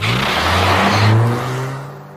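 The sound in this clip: A taxi's engine revs loudly as the car accelerates away, a steady whirring roar with a climbing engine note lasting about two seconds, then easing off, with no voices.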